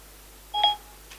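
Single short telephone keypad tone as a call is placed. One clear, brief beep sounds alone against near-silence, followed by a faint trace afterward.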